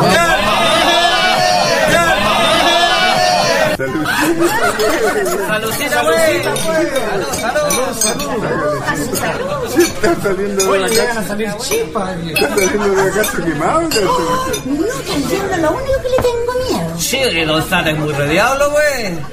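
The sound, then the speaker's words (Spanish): Crowd chatter and clinking glasses fill the Canto Libre chingana, a festive fonda-style gathering, with dense overlapping voices and frequent bright clinks of glass and dishes throughout. “así está la gente en estos momentos en la fonda, en la chingana, porque no somos fonda, somos la chingana del Canto Libre”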